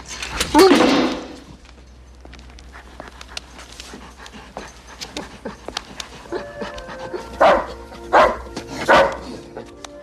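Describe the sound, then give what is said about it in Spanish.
A dog barks and pants inside a kennel cage. A loud burst comes early, then quieter panting and whimpering, then several sharp barks close together near the end. “Entran en una perrera. Entra en la jaula. Eso es. Buen perro. Cierra la puerta de la jaula.”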